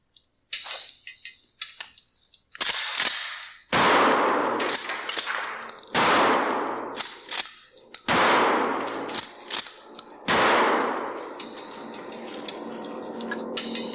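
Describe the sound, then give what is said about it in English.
Shotgun blasts fired into a piano, many loud sharp reports in an irregular series, each bursting out and then ringing and decaying before the next shot. “I don't know why they had to shoot a piano, because I mean, I think that was on. He's shooting a piano there, but like, here's a shotgun, buddy.”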